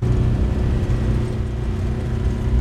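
The engine of an old tracked military vehicle runs as it travels through deep snow toward a border tower. It gives a loud, steady low rumble with a constant droning hum throughout.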